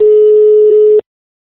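Ringing tone of an outgoing telephone call: one steady, loud, even tone that lasts about a second and then stops abruptly into silence.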